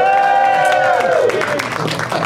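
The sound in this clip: Studio audience crowd cheering cut into a live show at Flappers in Burbank: a loud burst of whooping voices with a falling pitch over broad crowd noise, lasting about two seconds.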